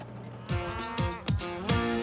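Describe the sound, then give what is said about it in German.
Cattle that have come back from winter pastures moo on lush meadows by Lake Zurich. Four short, deep lowing calls follow one another quickly, with no voices. “Die Rinder sind seit gestern von den Winterweiden zurück auf den saftigen Wiesen unten am Zürcher See.”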